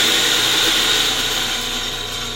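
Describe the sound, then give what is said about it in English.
A coffee grinder grinds beans with a loud, steady whirring hiss that runs unbroken throughout and eases slightly toward the end. “You want a good grinder, ideally. Something that will grind consistently, because that's going to impact how you brew. Then you got to get your grind right, which is what we're working on.”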